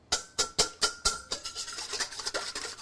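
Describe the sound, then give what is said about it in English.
Eggs are whisked in a bowl: a few sharp, distinct strokes, then a quicker, softer run of rhythmic scraping, all fairly faint. “I'll crack some eggs. We'll just give those a little whisk.”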